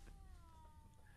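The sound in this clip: Faint meow of a pet cat outside a door at night, a single drawn-out tonal cry with a slightly falling pitch over quiet background hiss.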